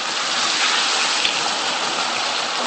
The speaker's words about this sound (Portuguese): Passando 1 minuto, já está a refogar. Pode apagar o lume.